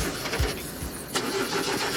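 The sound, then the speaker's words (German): A limousine engine cranks and turns over with a rough, faulty sound: a steady mechanical churn with a few low thumps, fairly quiet and with no voices. “Draußen steht eine Limousine für euch. Steigt mal ein und anlassen.”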